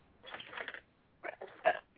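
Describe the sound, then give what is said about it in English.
A person burps once, a brief, faint throaty belch, followed by a few short soft sounds. “I burped too on the air, like you did”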